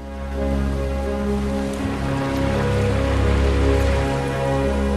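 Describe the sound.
Gentle sea waves lap at the water's edge in a continuous soft, splashy wash, with a steady low drone running underneath throughout.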